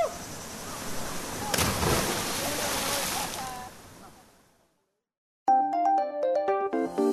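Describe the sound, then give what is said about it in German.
A person jumps three metres from a rock into cold water in Colombia. A sudden splash gives way to rushing water noise that fades to silence, followed by a short, bright melodic jingle. “Dann stürze ich mich die 3 Meter vom Felsen ins kalte Wasser.”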